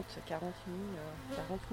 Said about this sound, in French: 40 000 abeilles. Impressionnant. Allez les filles, on descend. On va arrêter de vous embêter.